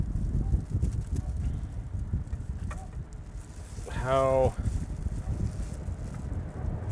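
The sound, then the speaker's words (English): Wind blowing outdoors: a constant low, rushing rumble buffets the microphone throughout, with gusts rising and falling, and a brief tonal sound in the middle. “we're now subject to the environmental conditions of being outside in the wind”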